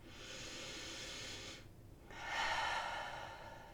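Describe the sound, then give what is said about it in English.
Deep breathing in and out: two long, airy rushes of breath separated by a brief pause, the second fuller and louder than the first, with nothing else heard. “Maybe you need a minute of just focusing on the breath in and out.”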